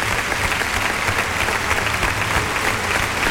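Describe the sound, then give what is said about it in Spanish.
Applause from a bullring crowd giving a matador a farewell ovation, a dense, loud and unbroken wash of clapping that holds steady for the whole three seconds. “Sigue la ovación mientras Carretero recibe ese brindis de Tomás Rufo en su despedida como torero.”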